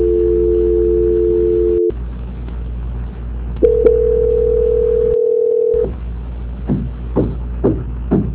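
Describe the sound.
Telephone tones during a call transfer: two long, steady tones separated by a short break, followed by a few short clicks or blips. No one speaks.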